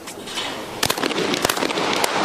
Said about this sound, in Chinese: 两枪全中